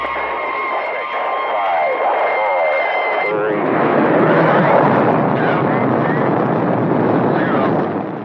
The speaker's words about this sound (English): That is the liftoff of the U.S. Atlas rocket on February 20, 1962, topped a capsule called the Friendship 7.